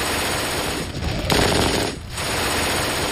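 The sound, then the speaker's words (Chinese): An MG42 belt-fed 7.92 mm general-purpose machine gun fires with a dense, ripping roar. The loud, continuous burst carries on almost unbroken, with two short dips in the sound. “MG42 式通用机枪，它有着可怕的射速，使用弹药带，口径是 7.92 毫米，”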